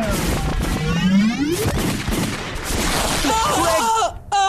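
Sci-fi blaster fire: a rising electronic zap sweep followed by loud crackling bursts and wobbling electronic chirps, dense and continuous until a sharp cut near the end.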